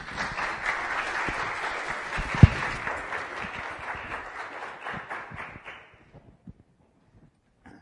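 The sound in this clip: Audience applause welcoming a guest speaker, steady clapping with one sharp, louder clap partway through, gradually thinning and fading to silence over the last couple of seconds.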